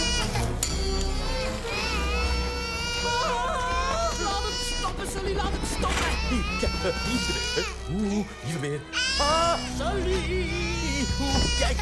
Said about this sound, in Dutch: Dus alsjeblieft, stop met huilen.